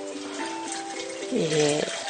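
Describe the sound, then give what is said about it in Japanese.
Hot water pours into a coffee server in a continuous stream with a hollow, ringing tone that shifts as the vessel fills, growing slightly louder toward the end. “サーバーに注ぐ。”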